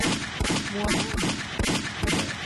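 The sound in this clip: Gunshot sound effects crack out as several sharp, loud shots over a dense, noisy rumble. Bursts come at irregular intervals.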